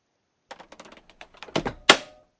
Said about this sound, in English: Oh, that's your cabin. That's your cockpit door. That sounded cool.